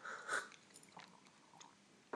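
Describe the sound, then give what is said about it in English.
A faint sip of espresso, with a soft slurp near the start and quiet mouth noises after it, alone and without talk. “But I guess I need to take another sip.”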